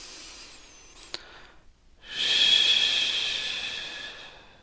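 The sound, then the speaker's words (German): A slow exhale is pushed through an open mouth as a long, breathy "sh" hiss. It swells quickly and then tapers off gradually over a few seconds. Softer breath noise and a single small click come before it. “und gerne durch den geöffneten Mund mit einem SCH ausatmen. Es geht darum, dass dein Ausatmen länger ist als dein Inatmen.”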